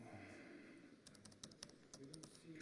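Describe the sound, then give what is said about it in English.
Soft typing on a computer keyboard: a quick, irregular run of faint clicks with some speech underneath. “I have to type it here so it's faster, and I will move it over to you when I've got the terminal program fired up.”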